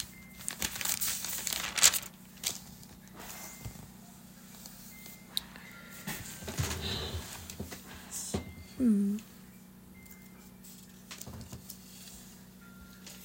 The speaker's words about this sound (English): I'm literally sitting at my computer. I could have just, like, typed it in really fast, but I feel like opening the Bible is so powerful.